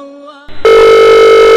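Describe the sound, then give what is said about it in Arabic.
A loud, steady electronic ringing tone plays on a mobile phone call. A softer tonal sound and a few brief blips come first, then the bright, buzzy tone starts sharply and holds unbroken to the end. “ادق جوالك”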